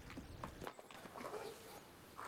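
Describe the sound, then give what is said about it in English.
Horse hooves clip-clop along a street as riders pass and stop outside a shop, a few faint, uneven hoof strikes over a low background hiss. “They ride past a young girl and boy sitting by the side of the street with some fruit and vegetables laid out on a blanket. They stop outside a shop, and Pete gets off his horse.”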